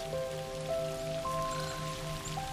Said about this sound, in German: und ihr könnt sogar hinausschauen in den Regen.